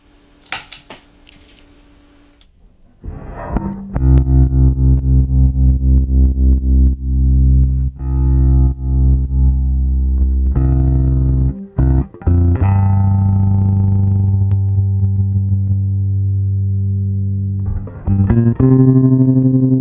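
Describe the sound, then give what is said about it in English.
Bass guitar run through a tremolo effect, playing deep sustained notes whose volume pulses in a rapid, even wobble, then holds steadier on later notes; no voices. “But the fun thing is messing with the speed of the two together and getting that tremolo. I don't remember exactly how I did it before, but I'll dial it in. You'll hear it.”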